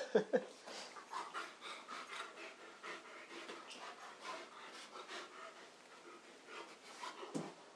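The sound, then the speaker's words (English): A dog rolls around on the floor after drinking water, making many soft scuffing, rubbing sounds over steady panting breaths, with a sharper knock near the start and another near the end. “Yep, one mouthful of water. Now he's going to go and roll on the floor, I think. Yep, cue the rolling.”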